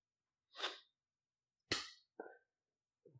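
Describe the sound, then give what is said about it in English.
Champagne bottle being opened: a few short bursts of hiss and fizz, one of them a sharp, loud pop, each ending in silence with no talk. “That's a nice controlled opening. Very nicely done. Here we go. For you, my friend. Something wrong with my champagne.”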